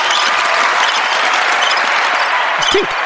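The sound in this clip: Crowd applause and cheering for a host's introduction, a loud, even, unbroken wash of clapping that holds at the same level for the whole stretch.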